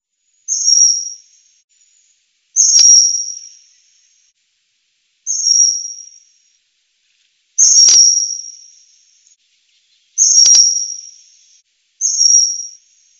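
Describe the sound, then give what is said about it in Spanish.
Six sharp, high whistled calls from a female common kingfisher, a resident bird of waterside places. The short piercing notes come at fairly even intervals, each one loud and alone against silence. “como hemos podido oír, pues hay poca variedad, ¿no? Este ave, el martín pescador, es una ave sedentaria, de aquí todo el año”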